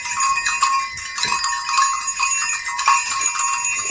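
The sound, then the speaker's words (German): Six small herd bells of different sizes ringing together in a continuous, overlapping jangle of high tinkling tones, steady and fairly loud with no talk. “das sind wahrscheinlich die Glöckchen von einer kleinen Herde. Mhm. Also es ist so, dass hier sind insgesamt 1, 2, 3, 4, 5, 6, 6 Glöckchen dran. Man hört das auch.”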